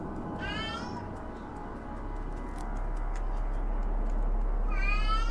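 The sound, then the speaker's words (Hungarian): A cat meows in a cat video game: two drawn-out, high-pitched meows, one near the start and one at the end, over a steady, continuous background sound. “És közben a cica. Nyávogós aláfestés biztosít a cicás játékhoz.”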